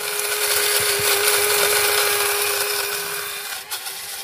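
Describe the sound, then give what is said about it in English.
A grinder works through a small amount of roasted wattle seed, giving a steady whirring hum under coarse, gritty noise. It runs continuously, easing slightly toward the end, with a brief dip shortly before it stops. “I'm just grinding a little quantity of the roasted wattle seed.”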